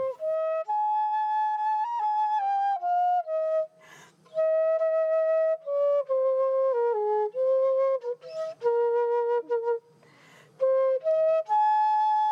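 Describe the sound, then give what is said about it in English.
Flute played aboard the International Space Station on St. Patrick's Day: a clear melody of sustained, bright notes with several short breaks for breath between phrases. “That's the sound of former NASA astronaut Katie Coleman playing a flute aboard the International Space Station on St. Patrick's Day in 2011.”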